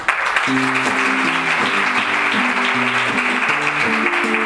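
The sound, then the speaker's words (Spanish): At a book presentation in Zaragoza, the audience claps along to a closing song. Steady rhythmic palmas form a dense layer over a simple melody of repeating low notes. “Allá, seguid con las palmas, pero al ritmo.”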